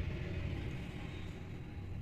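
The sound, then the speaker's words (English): A loud diesel truck passing by outside makes a steady, low engine rumble with a dense, droning hum that holds at an even level throughout. “I don't know if you heard that, but that was the loudest diesel truck I've ever heard in my life.”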